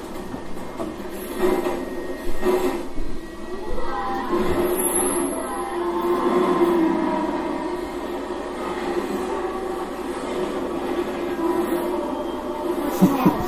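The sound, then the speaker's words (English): A runaway train travelling at about 80 miles per hour makes a continuous, even rushing rumble that holds steady throughout, with a few faint clicks and no voices. “But that train, that 80 mile per hour train is going straight towards that passenger. Look at that, right there. See, that train is going towards the passenger.”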